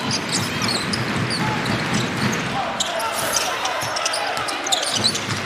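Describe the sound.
Basketball dribbling during a Korean team's game: ball bounces under a constant roar of crowd noise, with a commentator talking over it.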